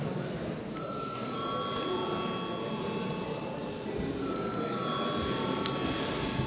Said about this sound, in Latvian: Lūdzu zvanu.